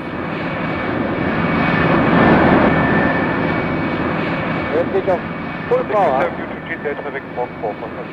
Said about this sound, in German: ich sitze in Fliegerkombi, Helm, Sauerstoffmaske, fest angeschnallt im hinteren Sitz des Alpha. Beim Starten habe ich doch ein etwas mulmiges Gefühl im Magen.